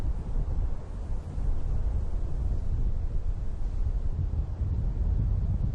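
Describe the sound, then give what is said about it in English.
Chilly autumn wind sweeping across open grasslands, a continuous low roaring rush that buffets the microphone, steady and fairly loud throughout with brief dips and no voices. “The wind is getting chilly in the grasslands.”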